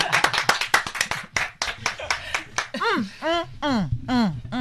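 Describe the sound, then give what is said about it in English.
Hands clap in a quick burst of many sharp, crisp claps for under three seconds. Voices then take over with drawn-out calls that swoop up and down in pitch. “Oh no, we must clap.”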